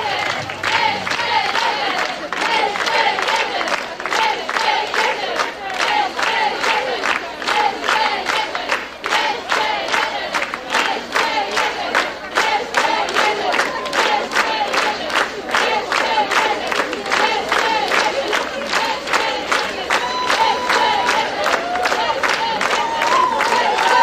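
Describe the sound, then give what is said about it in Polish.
Loud applause from a concert audience calling for an encore: dense, steady clapping sustained throughout, with crowd noise mixed into the continuous roar of hands. “Gromkie brawa słyszymy i mamy nadzieję na to, że za chwilę zespół na scenie się pojawi.”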